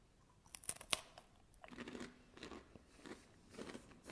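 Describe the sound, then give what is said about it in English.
Crisp bites and chewing on a crunchy snack filled with white chocolate cream: a few sharp cracks first, then many softer crunches. The crunching is faint and has no talk over it. “There is some kind of a white chocolate cream. Tastes really nice. Not too sweet. Nice and crunchy.”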